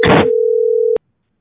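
A telephone ringing tone before a call is answered: one steady, mid-pitched beep that holds for most of a second, then cuts off abruptly into silence.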